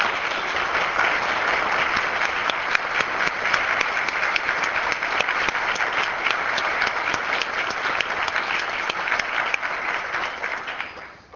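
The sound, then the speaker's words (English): Applause from the gallery of the South Dakota legislature for visiting nutrition directors: dense, sustained clapping from many hands that holds steady for about ten seconds, then tapers off at the end. “Up in the gallery, we'd like to give a big hand to the nutrition directors who are here with us, gave us lunch today.”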